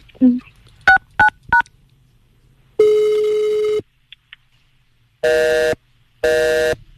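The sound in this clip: Telephone keypad tones as a number is dialed: three quick beeps, then a longer steady tone and two more sustained tones, all loud and clean.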